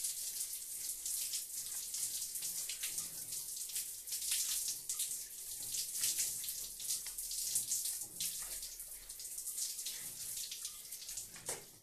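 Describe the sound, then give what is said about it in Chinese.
Water runs from a tap while someone washes their hair, a continuous, fairly quiet hiss with slight fluctuations like splashing against hands, with no talking. “我先去洗头了”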